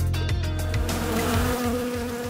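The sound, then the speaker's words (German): Ground wasps buzz at their nest beneath a lawn at a swimming pool, making a steady, continuous drone. The loud insect hum holds its level throughout, with a low, pulsing undertone. “Hier ist Aktivität, und zwar nicht nur über, sondern auch unter dem Rasen.”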